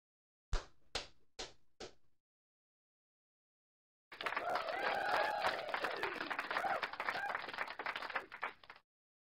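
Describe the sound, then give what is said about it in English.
Four sharp hand claps, then a pause before Atlanta Braves fans applaud in the stadium during a game against the St. Louis Cardinals, a sustained, noisy crowd roar that holds steady and then cuts off. “And the Atlanta fans will give him a round of applause. We got the best fans in baseball. And I see it in the background. Atlanta fans are giving him a round of applause.”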